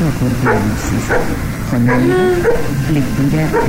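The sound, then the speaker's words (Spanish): A dog barks in the house next door, a few sharp barks with whining cries between them, under people talking close by. “Tenemos una interferencia de radio y un perro que está ladrando.”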